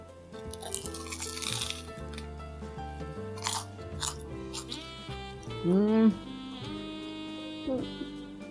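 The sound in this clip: Crunching and chewing of bread, a bakery's signature loaf, with a loud, crisp burst of crunching early on and softer chewing afterwards over a steady tonal background.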